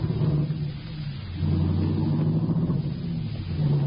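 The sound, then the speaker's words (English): A car engine rumbles steadily while driving. The low, continuous drone swells noticeably after the first second and a half, then holds at that level. “I better get you to a doctor, Cliff. No. Just drive me around while we talk.”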